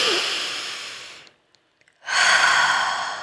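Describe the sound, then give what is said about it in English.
Deep breathing: two long, airy, fairly loud breath sounds separated by a bit under a second of near silence, each steady and breathy, with no talking. “So take a deep breath.”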